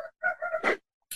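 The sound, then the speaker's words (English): A rooster crows in one brief harmonic call. Steady held tones break into a raspy burst, followed by a short faint tail, with no talk over it. “There's Red Rooster. I know. I thought we were going to make it through one. I thought we were going to make it through one without him voicing his opinion.”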